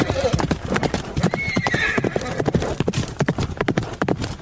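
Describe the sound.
Horse hooves clip-clop in a steady, brisk rhythm of many hoof beats, with a neigh rising above the steps midway through.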